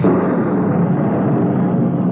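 A thunderbolt sound effect in a 1946 radio drama of Snow White, a loud, sustained rumbling roar that stays steady for about two seconds.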